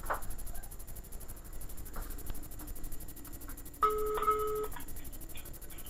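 Telephone ringback tone while a call is being placed: a single steady electronic tone burst of just under a second over continuous background noise.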